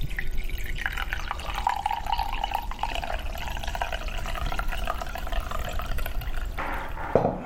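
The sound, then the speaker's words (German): Warm tea is poured into a cup in one continuous trickling, splashing stream of liquid lasting several seconds. The sound is fairly loud and heard alone, without talk. “So, ich spüre erstmal gar nichts mit dem Finger. Und dann, wenn ich es gegossen habe, dann spüre ich so den warmen Tee.”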